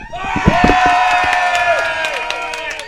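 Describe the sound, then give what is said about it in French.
A live audience at a show cheers and whoops, a loud, continuous wash of shouting voices that holds steady for nearly three seconds. “On est live au Brou, hein? Oui. Et on est donc devant public!”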